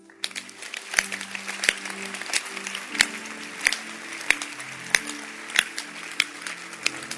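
Steady rhythmic hand clapping from a gathering joining a bishop, with sharp, evenly spaced claps roughly every two-thirds of a second over low sustained tones.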